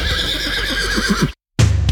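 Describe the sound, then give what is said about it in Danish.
A horse gives a loud, long, wavering whinny in a harness racing advert, then falls silent briefly before a short burst of noisier sound. “oplev farten fra hestene, når de suser over feltet”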